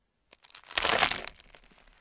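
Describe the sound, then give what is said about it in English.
Crunching and crackling come from a sandwich of bread, apple slices and crisps being pressed down by hand. A few light crinkles lead into one loud crunch of about half a second, which then fades into scattered crackles. “Last of all, you put another slice of bread on top of the apple and you press it down.”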